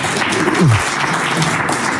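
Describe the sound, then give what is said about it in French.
Audience applause at a local history quiz in Issoire, France, after a correct answer: dense, even clapping that holds steady and fairly loud for the whole stretch. “Oui, bravo. Applaudissements.”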